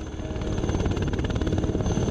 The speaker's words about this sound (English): To get there, he had to take a helicopter.